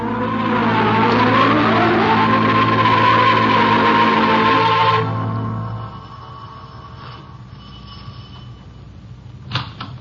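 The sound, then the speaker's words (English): A car driving off: a loud engine whose pitch climbs and then holds steady before dropping away sharply about halfway through, leaving a faint low hum with a few soft clicks. “let's drive out and have a chat with Judge Gregg.”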